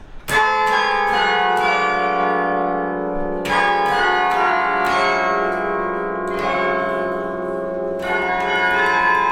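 Carillon bells played from the console by a student at Yale, loud struck bell notes in an intricate passage, each strike ringing out with bright, layered overtones that linger and overlap as several more notes follow.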